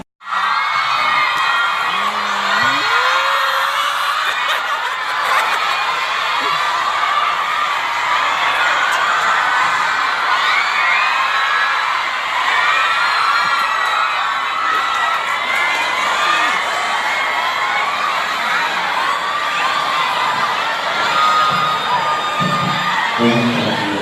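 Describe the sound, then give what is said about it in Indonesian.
A crowd at an event shouts and cheers without a break, many voices blending into a loud, steady roar with scattered whoops and yells throughout. “teriakannya cukup dari awal saja”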